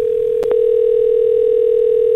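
A telephone dial tone plays while a call is being placed: a loud, steady, mid-low hum held throughout, broken by a couple of brief clicks near the start.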